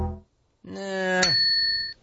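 A bell sound effect: a short tone leads into a single bright ding, whose high ring holds briefly before cutting off abruptly.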